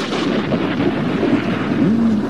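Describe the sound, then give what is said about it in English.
Thunder rolling as a deep, continuous rumble that stays loud and even throughout, with a broad, noisy texture and no distinct separate claps. “Very, very appropriate. Thunder rolls.”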